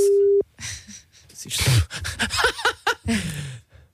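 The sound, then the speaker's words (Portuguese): A telephone line tone, heard while calling someone, sounds as a short steady beep at the very start and then cuts off. Lively voices follow straight after, talking with breathy bursts. “Mas lá está, não está aqui a responder, vamos ter de ligar.”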